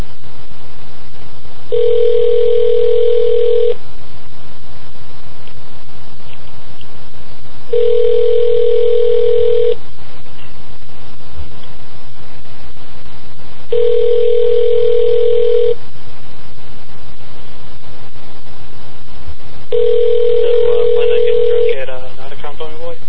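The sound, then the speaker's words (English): Telephone tone while dialing a phone: four long, evenly spaced tone bursts, each about two seconds, repeat with pauses between them over a faint, steady low hum. “I'll try dialing this thing up again.”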